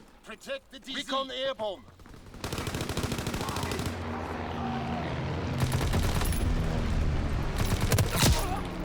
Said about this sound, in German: Ah, schöner Call of Duty tot. In den Rücken geschossen.